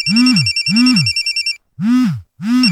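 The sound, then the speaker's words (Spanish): A telephone ringing with a warbling electronic trill in repeated bursts, each paired with a low swooping tone, loud and separated by short silent pauses. “¿por qué no contestan? ¿Ah? ¿Qué no ves que Melimar te está llamando?”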